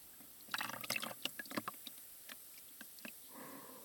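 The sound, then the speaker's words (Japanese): Hot water poured over the body during a massage: quiet splashing and trickling with a cluster of sharp drips and splatters early on, thinning to scattered drops and a soft, steady pour near the end. “お湯に使っていないところにお湯をおかけしながらマッサージを行います。”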